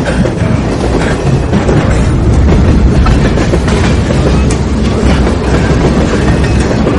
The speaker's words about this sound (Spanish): El tren pasa frente a él. El joven corre tras el vagón de cola.